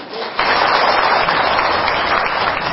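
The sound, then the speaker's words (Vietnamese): Audience applause at a Buddhist temple gathering celebrating Vietnamese Teachers' Day: dense clapping from many hands that rises sharply and holds at a steady, loud level. “Xin cho chùa Thiên Chánh một tràng pháo tay.”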